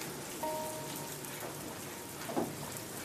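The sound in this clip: Steady rain falls with a soft, constant hiss of drops on a surface. It stays faint and even throughout, and no one talks.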